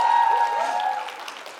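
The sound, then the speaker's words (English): Applause from a church audience welcoming a new member, dense clapping that starts strong and gradually thins and fades over about a second and a half. “You guys give her a hand.”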